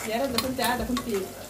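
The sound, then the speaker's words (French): Stirring a pot of Sudanese asida cooking with onions, meat, tomatoes and okra, with a continuous sizzle under soft scraping strokes. “Alors, on coupe les oignons, la viande, les tomates, les okras. On mélange.”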